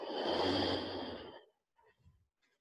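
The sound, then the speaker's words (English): A slow inhale during a yoga exercise, taken while bowing forward: a soft, airy breath lasting about a second and a half that fades out, followed by a few faint small noises. “Breathe in, bow forward.”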